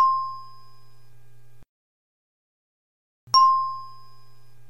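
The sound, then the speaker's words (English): A game show ding for a right answer or a bid, heard twice: each is a bright, clear bell tone that rings out and decays slowly over a faint low hum, with about two seconds of silence between them. “the most simple, basic sound that permeated through many game shows, especially The Price is Right, would be the ding.”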